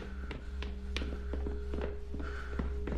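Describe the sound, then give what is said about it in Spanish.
Two men, one wearing glasses and the other a guard, walk down a secluded staircase. A steady series of light footsteps taps over a constant low hum. “El hombre de gafas y un guardia triángulo bajan por unas escaleras apartadas.”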